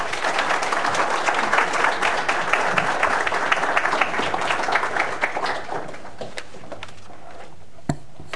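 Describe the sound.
Audience applause welcoming a speaker at a public affairs lecture, dense and steady clapping from a crowd that holds level for several seconds, then gradually thins and softens toward the end.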